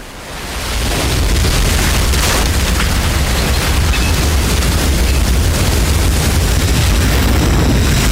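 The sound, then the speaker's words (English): Huge roaring blast of an exploding oil rig and its burning tower of oil at night in a film scene. The noise swells over the first second into a loud, dense, unbroken rumble that holds steady to the end. “The tower of oil catches fire. A massive torch burning into the night.”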